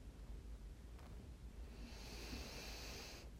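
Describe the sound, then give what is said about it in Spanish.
A deep breathing exercise: one long, soft, airy breath is drawn out through the second half, hushed and very faint, with no voice over it. “Inhalamos, exhalamos, soltamos todas las toxinas, todo el dióxido de carbono.”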